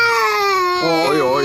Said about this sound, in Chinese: 这是 怎么了？ 一直哭啊！ 您什么哄也不行。